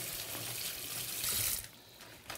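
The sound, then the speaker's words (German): Untreated oranges rinsed under hot running tap water, a faint steady hiss of flowing water that swells briefly louder midway, then settles back. “Dann nehme ich jetzt die Orange. Das sind ja unbehandelte Orangen. Die tue ich mal einmal heiß abwaschen.”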